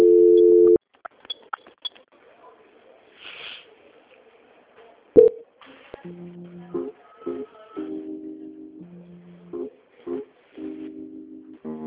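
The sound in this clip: A telephone busy tone sounds after a dropped call transfer: a steady tone gives way to faint line noise, then to repeated short tone pulses that switch between two pitches.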